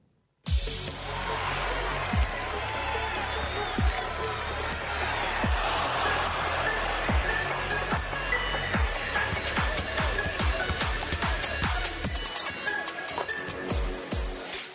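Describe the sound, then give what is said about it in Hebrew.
Opening theme music of a Euroleague basketball show, a dense, loud wash driven by a steady beat of regular low thumps, breaking into rapid clicking near the end. “יאללה, ערד, תן בראש עם הפתיח.”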